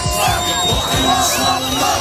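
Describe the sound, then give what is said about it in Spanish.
Thousands of Palestinians cheer and celebrate in Gaza, a dense, steady roar of crowd voices with yells and whoops rising over a continuous babble, loud throughout. “Este es el sonido de la alegría en la franja de Gaza, donde miles de palestinos celebraban ayer”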